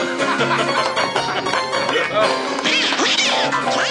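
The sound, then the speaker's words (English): A voice imitates Daffy Duck, the cartoon duck, with loud, squawking, quack-like vocal bursts that follow one another rapidly. “I just went into Daffy Duck mode, folks. I don't know why. It's a cartoon show. Of course you're going to eventually go to Daffy.”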